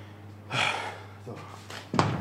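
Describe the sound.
A door being closed by one man behind another, heard as soft rustling bursts followed by a sharp thud near the end.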